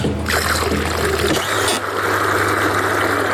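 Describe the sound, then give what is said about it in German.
Rushing water and pump noise from a calf-feeding machine mixing milk powder with water in a barn: a loud, steady gush and hiss, with a low mechanical hum settling in partway through. “Dort, wo die Maschine im Sekundentakt das Milchpulver mit dem Wasser vermischt.”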